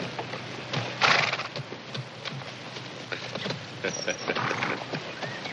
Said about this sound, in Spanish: Cuando Nick va hacia su caballo, irrumpe Sam cabalgando por detrás de un arbusto.